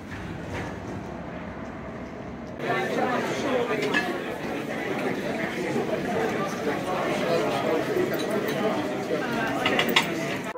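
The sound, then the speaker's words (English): Crowd chatter of people congregating at a conference: many overlapping voices blend into a dense, steady murmur that grows fuller after the first few seconds and holds without pause. “Here we are. Look, everyone's congregating. This is a conference”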